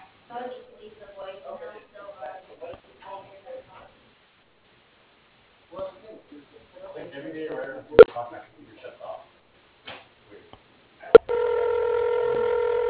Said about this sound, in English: If you know your party's extension, you may dial it now. Otherwise, please press 1 for the next available representative.